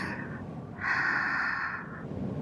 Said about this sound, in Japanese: ぶどう畑の風を吸って